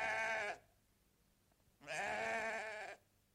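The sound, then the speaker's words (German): Sheep bleat as they are driven into a pen: two faint, wavering bleats, the second longer, with a quiet pause between them. “Und eines Tages, ich trieb die Schafe gerade in die Hürde.”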